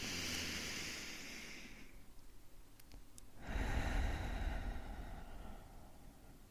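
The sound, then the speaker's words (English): Faint, slow deep breathing, one long airy inhale followed by a short pause and then a long, gusty exhale, with no voice present. “One of the ways we can do this is by taking a deep breath in and a deep breath out.”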